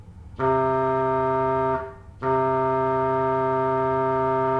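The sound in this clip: A clarinet-like reed stop on a pipe organ plays two sustained notes of the same fairly low pitch, separated by a brief pause. The reedy, hollow tone holds steady and even.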